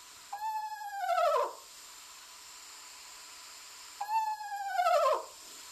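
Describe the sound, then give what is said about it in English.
Eastern screech owl calling with two separate whinny-like trills, each a quavering, harmonic-rich call that drops in pitch toward its end, separated by a long quiet gap with steady faint background hiss. “This is the sound that I'm most familiar with from the eastern screech owl.”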